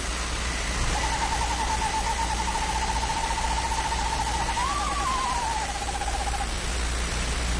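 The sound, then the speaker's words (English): A screech owl gives one long, even trill of rapid pulsed notes lasting several seconds. Its pitch briefly lifts near the end before the call tapers off over a steady background hiss. “that's a screech owl screeching. Now that's scary.”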